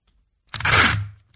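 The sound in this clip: Cellophane tape is peeled from its end and torn: a single bright, rasping tear of roughly half a second, alone against near silence.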